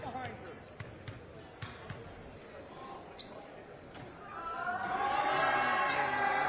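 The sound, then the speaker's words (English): At the free-throw line, a sophomore basketball player bounces the ball a few times before her shot. The sharp thuds come under commentators' talk, and background noise swells toward the end. “Yeah, she's got an interesting free throw. She goes kind of bounce. Three times,”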